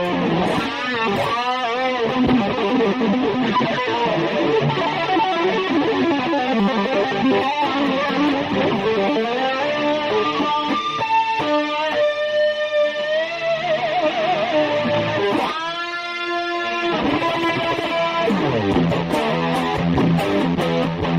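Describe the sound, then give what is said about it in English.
Electric guitar played through an effects unit: a continuous, loud passage of ringing chords and sustained notes with no talk. “I need more distortion. I don't have any distortion on.”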